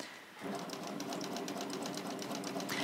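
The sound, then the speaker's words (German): Sewing machine running a straight stitch, starting after a brief pause and continuing as a rapid, even, rhythmic clatter. It stays fairly soft and steady throughout. “Damit das nicht passiert, werden die ersten Stiche normal mit dem Gradstich genäht, zum Verriegeln dann. Und der Rest geht dann im Dreifach-Gradstich weiter.”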